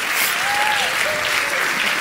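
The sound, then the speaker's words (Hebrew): Applause from many men clapping together, a dense, steady patter of hand claps that holds an even loudness throughout. “הרבה גברים מוחאים כפיים”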